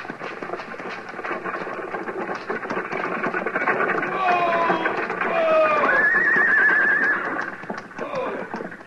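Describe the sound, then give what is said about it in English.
Horses ridden forward: steady clip-clop of hooves under a dense rumbling wash, with a loud whinny in the middle that wavers in pitch, and voices mixed in. “When the stage comes out of those cottonwoods, Chester and I'll ride forward and stop her.”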